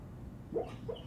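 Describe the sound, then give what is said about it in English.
A sleeping female dog whimpering: two brief, soft, high whines separated by a short gap, faint over a low steady background hum. “That's my dog sleeping. And she, like, almost whimpers when she sleeps.”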